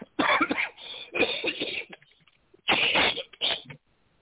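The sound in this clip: Wet, phlegmy coughing as someone clears their throat, in a few short rough bursts with pauses between them, alone without speech.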